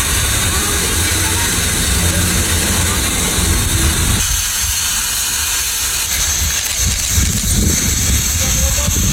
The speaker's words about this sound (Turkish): gaz çıkışının doğal gazdan değil hastane bahçesinde bulunan oksijen tankından kaynaklandığını tespit etti